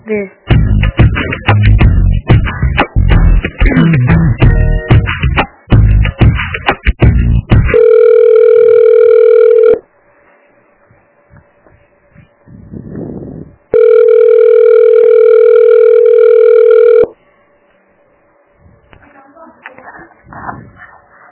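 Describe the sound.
Telephone line tones during a call transfer: two long, steady, loud tones separated by a quieter gap, preceded by several seconds of dense, loud sound.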